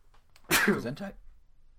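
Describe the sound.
A single sneeze bursts out suddenly, a sharp noisy onset trailing into a brief voiced tail, then quiet background.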